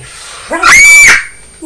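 A child lets out a single shrill, high-pitched scream that lasts about half a second. The scream is loud and stands alone, with no other sounds around it.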